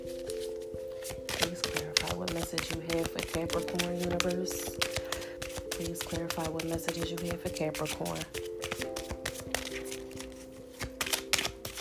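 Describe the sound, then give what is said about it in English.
Angel cards are shuffled in a long run of rapid, dense papery riffles and flicks, carried over steady sustained background music tones. “So let's go ahead and get some angel cards.”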